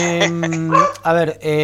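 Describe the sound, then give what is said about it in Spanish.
A female dog barking in loud, drawn-out, tonal yowls, about three in quick succession with brief breaks between them. “Acá tengo la perra ladrando, que no. La voy a meter para adentro.”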